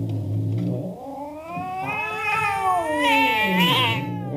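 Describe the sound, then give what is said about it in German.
Cats screech and yowl in long, wavering harmonic wails that rise and fall in pitch, loud and unbroken across the whole clip with no talk. “Da rasten die Katzen auf mich los und schrien und bissen sich an mir fest.”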